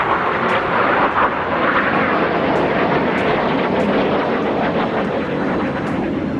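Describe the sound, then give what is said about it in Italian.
F-16 fighter jets fly low over Ankara during a coup attempt, producing a loud, continuous roar that holds steady without letup for the whole stretch. “I caccia F-16 controllati dai golpisti avevano iniziato a sorvolare a bassa quota Ankara, seminando il panico tra la gente.”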